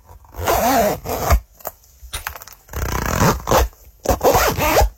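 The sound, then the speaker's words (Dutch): Zippers being closed: several quick, raspy zipping strokes of varying length and loudness, each a dry scratchy rasp with brief pauses between them. “Het dichtdoen van ritsen. Ja, dat is een goed geluid.”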